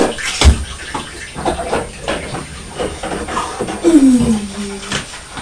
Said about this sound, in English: Mummy's just rinsing your beaker and then she's going to make a drink for you.